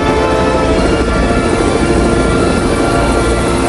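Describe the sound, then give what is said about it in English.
A helicopter comes in to land on an office block roof with a loud, constant roar of rotor and engine. The dense, unbroken noise holds steady throughout and no voices are heard. “A helicopter comes in to land on an office block roof.”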